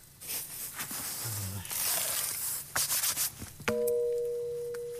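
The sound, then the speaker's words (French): A raw petit granit stone slab, about 2.5 m by 80 cm, is rubbed and scraped, then struck once with a sharp tap that leaves a clear ringing tone sustaining to the end. “Et ça, c'est du petit granit. Petit granit, c'est un son un peu plus sec, un peu plus comme du bois.”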